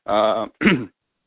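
A throat clearing in two loud, quick bursts: the first longer and voiced, the second a shorter rasp, followed by silence.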